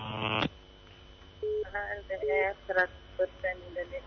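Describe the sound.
A telephone redials after a dropped call: a brief buzzing tone cuts off, then a string of short dialing beeps at varying pitches follows in an irregular rhythm.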